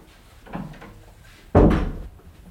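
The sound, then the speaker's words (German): A bathroom door is pushed shut in a home, landing with one solid, loud thud that tails off quickly, after a softer, muffled knock a second earlier. “Soll ich die Tür wieder zumachen? Ach ja, machen Sie zu.”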